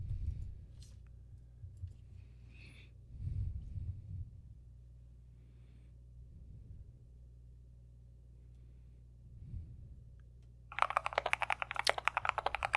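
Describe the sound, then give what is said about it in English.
Rapid typing on a thocky mechanical keyboard: a dense run of many quick, crisp keystrokes bursts in near the end after a long stretch of steady low hum and faint rumble. “Type in Thocky keyboard.”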